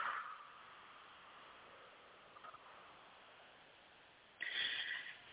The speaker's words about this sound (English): we're going to take a few deep breaths into your nose and out through your mouth.